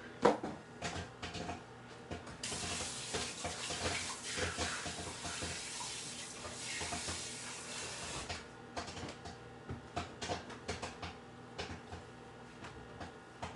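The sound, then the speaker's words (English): Movie theater butter popcorn popping, with many irregular sharp pops scattered over a steady sizzling hiss. The hiss swells through the middle, then eases, leaving sparser pops. “All right, it's popping away. We're popping the movie theater butter right here.”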